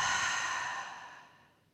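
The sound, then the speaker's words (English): A long, soft exhale from a guided breathing exercise, a breathy hiss that starts moderately and fades steadily to near silence, alone with no other sound. “Big inhale. Inhale. Hold 3, 2, 1. Exhale.”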